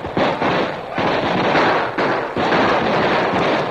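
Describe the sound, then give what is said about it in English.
Gunfire between kneeling outlaws and an advancing posse in a radio drama, a loud, dense roar of shots in a few long bursts separated by brief breaks. “Like a well-drilled infantry team, the outlaws suddenly dropped to their knees, drew their guns, and fired, to be answered almost immediately by the advancing posse.”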